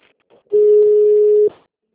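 One steady telephone tone of about a second as a call is passed to another line, even in pitch and fairly loud, with faint line noise before and after.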